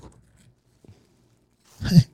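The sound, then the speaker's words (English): Foil capsule being peeled from a Glen Scotia Double Cask whisky bottle: a few faint ticks, then one loud, brief crinkling tear at the end after near silence. “The foil, well done. It's not some of that cheap aluminum foil you find on some bottles or in some places. So let's see what we got here.”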